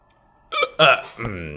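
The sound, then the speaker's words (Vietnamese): A voice imitates a smug hiccup: two quick voiced bursts, then a drawn-out, wavering vocal tail. “Hứa Thanh, làm ra một cái nấc với vẻ mặt đắc ý”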